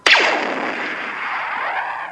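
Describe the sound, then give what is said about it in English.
A Star Wars blaster shot: one sharp, bright crack followed by a warbling, ringing tail that slowly fades over about two seconds. “The Star Wars blaster is a sound effect that we hear throughout all of the movies, the chosen weapon of Han Solo and all of those inept, easily wounded stormtroopers everywhere.”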